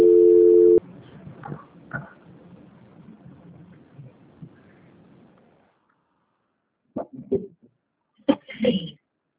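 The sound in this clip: A steady telephone tone sounds loudly for under a second during a call transfer, then gives way to a low hiss, faint clicks and short bursts of voice.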